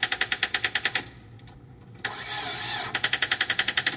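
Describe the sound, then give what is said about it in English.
Car starter chattering as a weak battery fails to supply enough voltage to crank the engine: rapid, evenly spaced clicking bursts, a stretch of steadier grinding hiss, then the fast chatter returns. “that chattering noise is the starter, but it's not a problem with the starter. That sounds more like you've got a battery problem. It's not getting enough voltage to really crank over, so when that happens, the starter chatters.”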